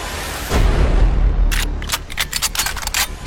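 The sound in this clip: Gunfire at an indoor shooting range: a deep boom opens, then many sharp, rapid shots crack out in an irregular burst.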